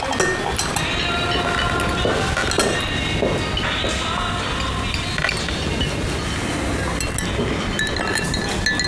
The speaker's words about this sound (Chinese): 用小勺慢慢的搅，搅匀之后，把勺子放在盘子里面